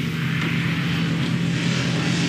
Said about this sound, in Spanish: Un autobús antiguo transita por una carretera de arena que atraviesa una zona árida.